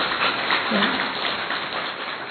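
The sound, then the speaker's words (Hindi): Audience applause at a spiritual gathering: a dense, even patter of many hands clapping, steady and muffled throughout. “अपने भाग्य को सराहो और उसके लिए ताली बजाओ।”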